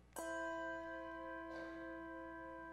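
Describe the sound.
Two handbells rung together, giving two bright metallic strikes with clear, ringing tones that sustain and slowly fade. The ringing is quiet, with no talk.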